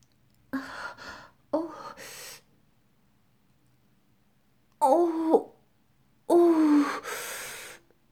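Deep breaths drawn in through the nose, heard as four separate bursts of loud, gasping breath with a voiced, wheezy edge, separated by short silences and one longer pause.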